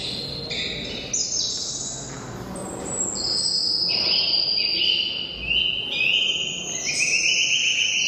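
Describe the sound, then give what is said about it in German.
Human voices imitating bird calls, sped up to the pace of real birds, sound like birdsong: many high, bright chirps, whistles and short trills in quick overlapping runs. A steady insect-like buzz and faint crowd murmur sit beneath. “Anschließend wurde der Ton dann wieder auf die ursprüngliche Vogelgeschwindigkeit beschleunigt und plötzlich klingen die Menschen wie Vögel und das hört sich so an.”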